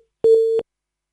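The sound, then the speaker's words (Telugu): A busy tone as a phone call cuts out: one short electronic beep at a steady mid pitch, lasting about a third of a second, alone in silence. “Call cut అవుతుందండి. Radio పక్కన ఉండి మాట్లాడొద్దు, signal మంచిగా ఉన్న చోటు నుండి మాట్లాడండి.”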